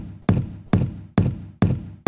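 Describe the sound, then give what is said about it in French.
Percussive knocks and thumps from a music piece built only from recordings of a door: five sharp, evenly spaced hits, each with a short resonant decay, forming a steady rhythm. “Pour faire ce morceau, le gars, il a enregistré une porte et rien d'autre.”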